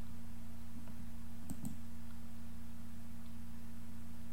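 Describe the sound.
Faint computer mouse clicks as auto translate is selected from a menu, a quick pair of sharp ticks close together over a steady low electrical hum, with no one talking.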